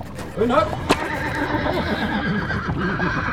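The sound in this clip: A horse pulling a carriage uphill lets out a loud whinny, followed by steady clip-clop of hooves, with voices alongside.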